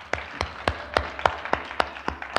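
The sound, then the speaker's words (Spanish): A church audience claps in unison, nine sharp claps in a steady, even beat, each one crisp and fairly loud, with no voices over them. “Démosle un aplauso azul, amén.”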